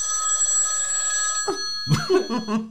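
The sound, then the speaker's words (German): A telephone rings with an incoming call, giving a bright, high electronic ringtone that holds for the first half. The ringing then cuts off and voices talk. “Was war das jetzt? Nochmal. Ich kann nicht mehr. Ich glaube, dich hat jemand angerufen, ich habe es weggedrückt.”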